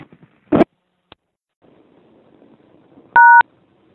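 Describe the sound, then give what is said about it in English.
A payphone keypad gives a single loud touch-tone beep near the end, after a brief clunk and a faint click over low background murmur. “I obviously dialed the wrong number, but standing out here at a payphone trying to reach a certain person”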